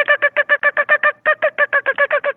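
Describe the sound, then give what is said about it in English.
A human voice imitates a bird's fast, excited clucking: many rapid, evenly spaced clucks in a steady rhythm, with one brief pause partway through before the run resumes. “And they get this real excited cluck, and it's really fast.”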